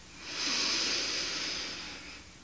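A deep inhale during a breathing exercise: one long, airy breath that swells over about half a second, holds steady, then slowly eases off, with no voices.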